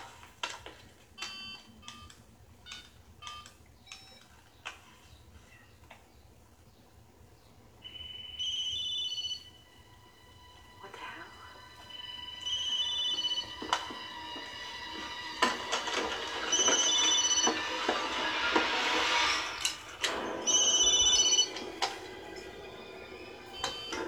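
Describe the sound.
A cell phone ringtone sounding after a call is placed, heard as bursts of bright electronic tones among scattered clicks and knocks, growing busier and louder toward the end.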